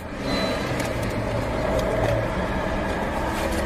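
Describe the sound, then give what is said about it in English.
A vehicle engine idling during a roadside stop by law enforcement: a steady, even low rumble with broad noise that holds level throughout, with no speech over it. “Is the vehicle off? The vehicle's running.”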